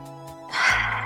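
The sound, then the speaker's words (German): A single deep breath drawn in during a guided meditation: a short quiet lead-in, then a breathy rush of air that swells quickly and holds steady to the end. “Nimm nochmal tiefe Atemzüge und integriere das einmal in deinem Körper.”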